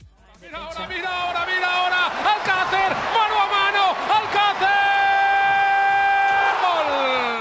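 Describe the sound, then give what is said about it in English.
A football stadium crowd roars after a goal in a Spanish league match. A dense, loud wall of cheering fills the whole clip. A man's long, drawn-out shout rides on top and swells into a sustained held cry. “That was the sound of Paco Alcacer scoring a La Liga goal, and it was from this very weekend.”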